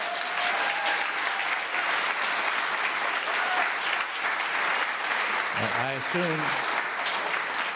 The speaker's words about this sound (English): I assume those of you who are not applauding are on Wall Street.